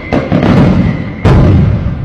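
Fireworks exploding at a 4th of July celebration: dense, rumbling blasts and crackles overlap throughout, with a sharp, louder burst about midway, all noisy and booming.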